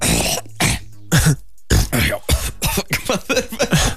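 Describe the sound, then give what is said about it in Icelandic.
A person fakes a cough, forcing out a rapid run of loud, rough coughs and throat-clearing bursts that follow one another with short gaps, staged rather than real. “Hvað er verra en fake hosti?”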